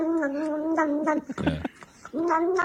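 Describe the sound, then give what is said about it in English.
A cat meowing in drawn-out, tonal calls that bend in pitch. A rough, noisy burst breaks in midway, and another long meow follows at the end. “You know that one? That's a cat.”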